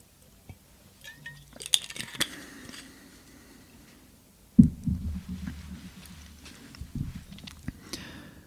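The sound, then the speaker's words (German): Someone taking a sip of a drink. There are soft clinks and handling noises, followed by low, quiet gulping and rustling sounds, with no talking. “In der Zeit trinke ich noch einen Schluck.”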